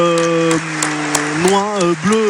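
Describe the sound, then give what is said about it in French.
Stadium crowd applause during a minute of tribute at a rugby ground, a steady broad patter under a voice with sustained tonal sounds, continuing throughout. “le club rend hommage avec effectivement cette minute d'applaudissement.”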